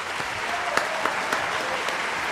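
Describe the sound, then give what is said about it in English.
A studio audience breaks into applause, a fairly soft, steady patter of many hands with a few sharper individual claps standing out over about two seconds. “Let's have the studio audience congratulate you for finding it.”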